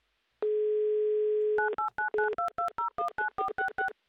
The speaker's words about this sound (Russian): Давайте звонить в Пермь и звонить Сергею. Делаем это прямо сейчас.